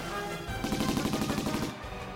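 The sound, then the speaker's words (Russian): Gunfire from a gun being fired in a rapid, evenly spaced burst of many quick shots lasting about a second. The shots sit over a steady, loud background rumble that continues before and after the burst. “стреляет все увереннее”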